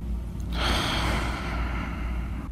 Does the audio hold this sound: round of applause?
no